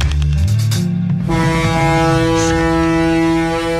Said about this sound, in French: Les auditeurs ont peut-être reconnu euh, la célèbre Corne de brune du paquebot France.